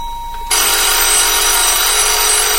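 A telephone bell rings loud and continuously, bursting in abruptly after a brief quiet tone, with no talking over it.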